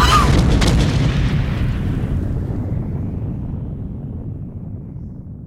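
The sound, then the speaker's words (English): A bomb detonates in the basement of a manufacturing plant, a loud, deep blast whose heavy rumble fades steadily over several seconds. “You have to get everybody out of the Supervot manufacturing plant in the Northern Quarter. The Sons of Kaldor planted a bomb in the basement. It's going to detonate it!”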